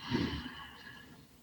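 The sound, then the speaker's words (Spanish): A deep inhale during a guided breathing exercise, a soft, airy breath that swells at the start and then trails off, faint and alone. “Vamos a respirar. Inhalamos profundo”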